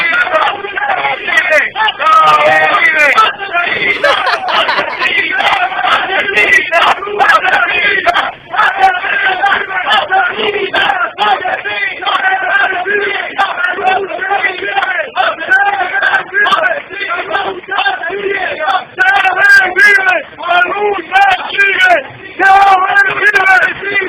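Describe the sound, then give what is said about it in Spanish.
A crowd boos and jeers at a press conference. Many voices shout in a dense, loud, continuous din that runs without a break the whole time. “María Corina Machado, cuando declaraba en la parroquia El Recreo, se llevó ¡tremenda pita!”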